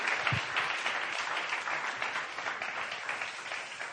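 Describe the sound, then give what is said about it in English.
Church audience at a prayer meeting applauding a pastor after he led prayer, a dense, steady wash of clapping that holds at an even loudness throughout with no talk. “Real quick, let's give it up one more time for Pastor Leo, just leading a powerful time of prayer.”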